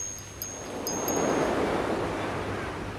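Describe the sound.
Sea waves wash in a steady, broad rushing hiss that swells slightly after the first moment and holds. Faint, high ringing tones sparkle briefly near the start.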